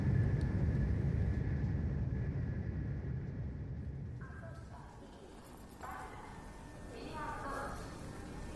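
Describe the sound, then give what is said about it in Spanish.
A train brakes to a stop with disc brakes as a low rumble slowly fades and settles. Faint higher tones appear in the later part. “A las 9:38 exactas, los frenos de disco estacionan a la composición y yo me dirijo con calma a los andenes de cercanías de Chamartín.”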